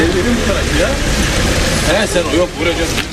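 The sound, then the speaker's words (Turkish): Cars idling in a long evening queue at the Belgrad Forest exit give a low, steady engine rumble that runs under a talking voice throughout. “Belgrad Ormanı'nın çıkışında akşam saatlerinde araç kuyruğu uzadıkça uzadı.”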